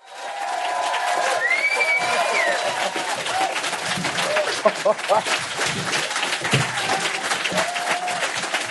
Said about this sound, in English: If you just keep clapping for 45 minutes, that would be fine.